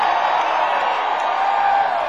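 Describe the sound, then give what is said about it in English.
An audience cheers at a bluegrass band's show, a dense, even wash of crowd noise that holds steady for two seconds without a break. “Let it out. Let all that cheering stuff out.”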